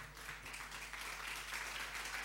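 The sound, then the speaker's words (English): Faint, steady applause from an audience welcoming debaters, a continuous patter of many hands over a low hum. “Thank you for putting your hands together.”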